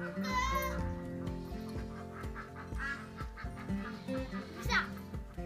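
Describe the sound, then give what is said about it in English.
Ducks quacking excitedly after being let out: many loud, overlapping honking quacks in a busy stream, with bleating goats mixed in. “And that's the sound of the ducks.”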